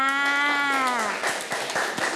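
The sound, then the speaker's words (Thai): Children clapping for their classmates: a scattered patter of hand claps that follows a long, drawn-out voice which slides down in pitch. “เก่งมากค่ะเด็กๆปรบมือให้กับตัวแทนทั้งหมดเลยค่ะ”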